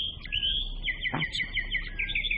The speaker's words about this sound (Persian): بهار همراه آواز پرنده ها از راه رسیده بود.